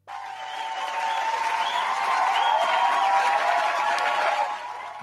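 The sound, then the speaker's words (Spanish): Applause sound effect: a steady, dense wash of clapping mixed with crowd noise that holds for about five seconds and eases slightly at the end. “No, igual, no me importa, igual tiro aplausos.”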